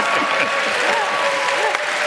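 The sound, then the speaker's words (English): Studio audience applause and cheering, a loud, dense wash of clapping with shouting voices on top, continuous from start to end. “Normally, it's the crowd that's cheering for you and your stuff, but in this case, you're cheering for the crowd.”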